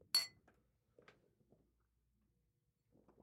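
Glasses clinking together in a toast: one bright, ringing clink rings out sharply at the start, followed by a few much softer knocks and taps. No voices are heard.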